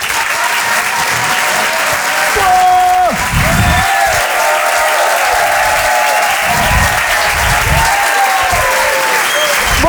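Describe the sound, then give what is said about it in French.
Applause from a comedy club audience in Paris greets a comedian taking the stage: loud, steady clapping with a few whistles and shouts, building slightly before settling into a sustained wash. “Je vous demande de l'encourager. Faites du bruit, s'il vous plaît, pour Laurent Barra.”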